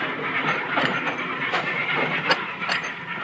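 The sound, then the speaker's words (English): A train heading down a railway track, a continuous rumbling roar laced with irregular clanks and rattling knocks at moderate loudness. “As the train heads down the track, they get up and dust themselves off.”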